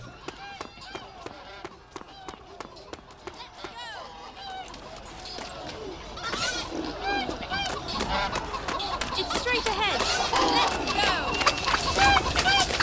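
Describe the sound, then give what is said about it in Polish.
Chickens cluck and squawk in a video game, with many overlapping clucks that grow busier and louder in the second half, mixed with voices. “Kury.”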